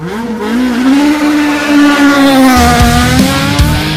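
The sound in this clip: Race cars accelerate hard at a race start, their engines rising into a high, loud whine that then holds steady, with a sharp squeal of tyres and no voices.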